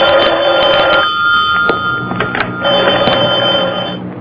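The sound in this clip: A telephone bell rings loudly in two long bursts of rapid trilling, separated by a short pause, with no voices.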